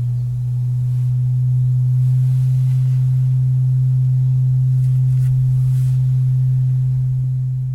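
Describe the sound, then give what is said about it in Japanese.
A ritual cauldron (kamanari) gives a deep, resonant hum, a single steady low tone that holds loud and unchanging through the whole clip, with nothing else heard. “こちらがその釜鳴りの音です。聞こえますか？”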